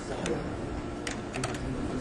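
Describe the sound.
Typing on a computer keyboard to insert words into a text, a few faint, scattered key clicks over a steady background hiss, with a voice talking.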